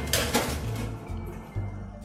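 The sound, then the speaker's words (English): A metal baking sheet of cookies goes into an oven with a couple of sharp metallic clinks, followed by duller, lower knocks and a soft rumble. “I'm going to transfer them into the oven and bake them off for 10 to 12 minutes”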